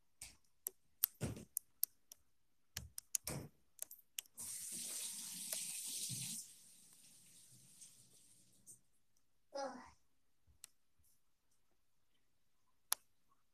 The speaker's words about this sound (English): I'm gonna go wash my hand.